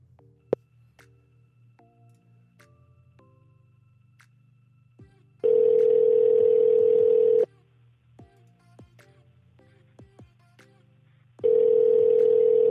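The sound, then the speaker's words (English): Telephone touch-tone dialing with a dial tone: many short keypad beeps at varying pitches, broken up by two sustained, steady tone bursts of about two seconds each, over a low hum. “And then oh, I'm calling the wrong number.”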